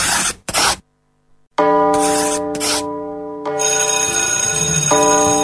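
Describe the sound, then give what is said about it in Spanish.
A bell rings with a loud, steady, sustained tone for several seconds, preceded by two short noisy bursts and a brief pause. “Ya tocó la campana.”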